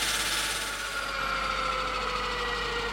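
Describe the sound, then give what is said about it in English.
Enormous circular diamond saws spin while cutting through bedrock near a mikveh. They make a continuous, even machine drone with a thin high whine running through it, holding steady without a pause. “Meanwhile, over near the mikveh, the enormous circular diamond saws began to spin.”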